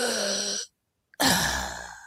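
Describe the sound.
A voice imitates the assisted breaths of a hospital respirator, making two drawn-out, sighing breath sounds separated by a brief silence.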